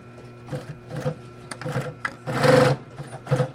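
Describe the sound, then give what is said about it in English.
A double-needle sewing machine stitches leather boot shafts in a series of short mechanical whirring bursts with one longer run, sewing two parallel lines of decorative stitching. “Now this is a double needle machine. It's decorative and makes the boots a lot stronger too.”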